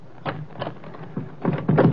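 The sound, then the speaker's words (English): Door being unlocked and opened: a few short clattering knocks and rattles, growing louder and busier toward the end, with no voices. “Wait a minute till I unlock the door.”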